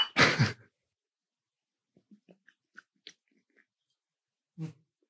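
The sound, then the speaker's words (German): Someone drinking beer makes gulping and swallowing sounds, opening with a loud breathy burst. A string of faint, wet mouth clicks follows in the quiet, then another short breath near the end. “Schluckgeräusche zu laut, ne? Im Podcast.”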